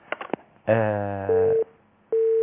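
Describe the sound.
Telephone line tones as a call is connected: a buzzy, harmonic-rich tone, then two steady pure beeps at one pitch, the last one still sounding at the end.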